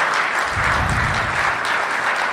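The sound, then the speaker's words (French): Audience applause at a live event, dense clapping from a crowd that stays loud and even from start to finish. “vous l'applaudissez pour l'encourager, et quand il a fini, vous l'applaudissez pour le remercier.”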